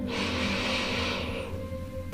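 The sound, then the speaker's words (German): A long, soft, breathy exhale, as if breathing onto a mirror or glass to fog it. The steady hiss lasts about a second and a half, then fades out. It is faint and heard alone. “atme einmal so aus, als würdest du einen Spiegel oder ein Glas anhauchen wollen. Das hört sich ungefähr so an.”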